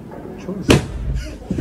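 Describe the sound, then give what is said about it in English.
An automobile airbag inflates under the cushion of an exploding chair, giving one sudden, sharp bang-like burst that stands out above a low, muffled background. “You know, I have to wonder if that is an automobile airbag. It has to be. Because the speed in which it inflates is crazy. And the power.”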